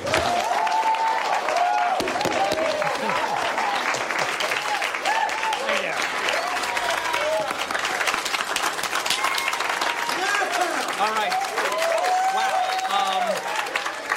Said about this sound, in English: Now let's put your hands together and give a warm welcome for the man of the hour, Mr. Michael Scott.